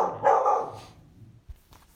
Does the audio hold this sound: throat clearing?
no